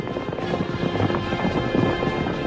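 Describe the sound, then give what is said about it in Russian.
Hoofbeats of a horse galloping along a road at night come as a steady, rapid, muffled drumming, with no voices. “нашел свою лошадь и поскакал по дороге, сам не зная куда.”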